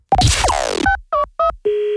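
A telephone call to a bank is dialled: a short, noisy burst is followed by three brief electronic beeps and then a steady, sustained tone, all fairly loud.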